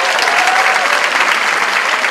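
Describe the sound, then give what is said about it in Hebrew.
Audience applause, dense and steady clapping sustained loudly and evenly from start to finish, with no single voice standing out. “איפה כפיים?”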